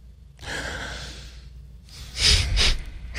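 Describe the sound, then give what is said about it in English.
A person takes a deep breath: first a long, airy inhale, then a louder, rougher exhale like a sigh. There is no talking. “I have to take a deep breath.”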